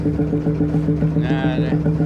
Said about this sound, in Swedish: Fångsten var relativt god och båten puttrade mot hemhamnen, följd av enstaka skriande och morgonhungriga måsar och trutar som fått syn på den